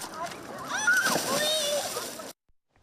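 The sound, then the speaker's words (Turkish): People splash while swimming in clean sea water, a busy, sloshing burst of splashes with excited voices shouting over it, cutting off abruptly at the end. “Onlar denize girerek eğleniyorlar. Aynı zamanda da serinliyorlar.”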